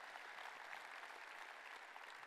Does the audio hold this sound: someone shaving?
no